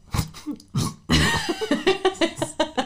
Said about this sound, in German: Entschuldigung, da kam die Muttermilch wieder auf.